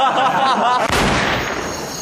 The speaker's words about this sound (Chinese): 这么好的枪还能走火啊？